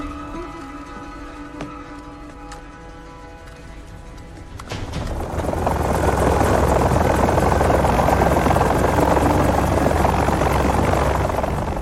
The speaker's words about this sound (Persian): از سانشاین به تیم کرکس، من تو موقعیت خروجم. تا 30 ثانیه دیگه فرود میام.